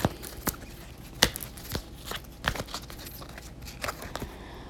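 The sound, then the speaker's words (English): Oracle cards being shuffled and drawn from a deck: a few sharp, papery snaps and flicks over soft, continuous rustling, quiet throughout with no voices. “So I'm going to go ahead and I'm going to pick a couple of cards for you.”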